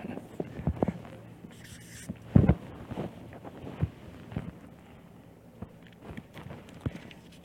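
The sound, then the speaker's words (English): Someone draws a picture of a roof with a pen, making many short, faint scratchy strokes in an irregular rhythm with small pauses between them. “And I'm going to draw the picture of a roof so I can fit it in.”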